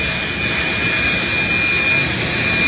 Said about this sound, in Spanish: Efectivamente, vino un jet privado